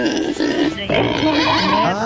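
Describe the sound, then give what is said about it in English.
A pig sound effect plays during a price-guessing game: a loud, continuous grunting squeal lasting about two seconds with a wavering pitch. “And the pig says it is higher than 589.”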